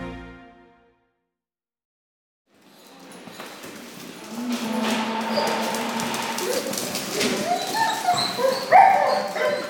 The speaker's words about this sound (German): Dora, eine Irish Setter Pudel-Retriever-Mischung, zerrt an der Leine.